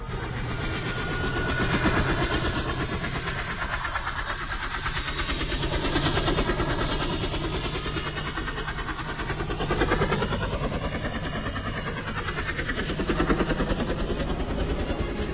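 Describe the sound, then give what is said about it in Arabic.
A steady, loud engine drone comes from an unseen airplane over a desert. The rumbling hum carries gentle, slow swells in loudness and runs without a break. “الطيارة صوتها اللي مش باينة”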